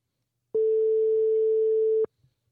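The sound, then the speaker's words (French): Ringback tone on an outgoing phone call: one steady, pure mid-pitched tone lasting about a second and a half, starting and stopping abruptly, with near silence before and after. “Ça sonne chez Nathanaël.”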